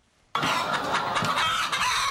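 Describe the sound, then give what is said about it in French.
Chickens clucking on a small poultry farm in Gabon that raises about 2,000 birds. After a brief quiet moment, a dense chorus of clucks starts abruptly and continues loudly, with no talk. “Wagé, petit fermier togolais installé depuis 30 ans au Gabon, a d'abord eu peur pour les 2000 poulets qu'il élève”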